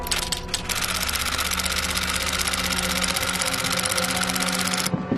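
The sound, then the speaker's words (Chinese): Rapid, continuous mechanical clatter of a typewriter typing a document, heard as a dense stream of clicks over a steady hum that breaks off near the end. “巡长先生，已经打印完毕。”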